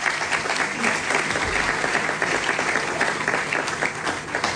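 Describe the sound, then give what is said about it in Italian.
Audience applause fills a celebratory centenary book presentation as a guest is called to the stage, a dense, even wash of clapping that stays steady throughout. “Bruno Vespa, che chiamo sul palco se mi fate un applauso per favore”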